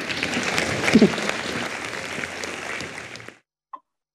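Audience applause for a team after a workplace training demonstration: steady, dense clapping for about three seconds that cuts off abruptly, followed by silence and one faint click.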